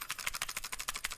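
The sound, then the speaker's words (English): Faint, rapid rattling of a plastic cassette tape being shaken, many quick clicking bursts in an even, fast rhythm with nothing else heard. “that's the sound of a cassette tape. You're shaking a cassette tape. It just made that sound.”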